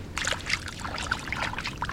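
A hand splashing in cold lake water, with a steady run of small sloshes, drips and trickles at moderate loudness for about two seconds and no talking.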